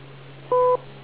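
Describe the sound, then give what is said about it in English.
A short electronic beep on a radio link, one steady two-tone pitch lasting about a quarter second over constant hiss and a low hum. “wait for the beep”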